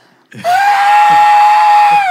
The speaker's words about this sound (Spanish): Estábamos en cuartos separados y ella gritó.